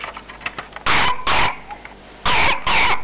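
A child coughing: four loud, harsh bursts that arrive in two close pairs, with quieter moments before and between them and no talk.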